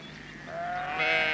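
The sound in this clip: A sheep bleats on a sheep farm, a single drawn-out, wavering call that swells louder toward the end over a steady bed of outdoor background noise.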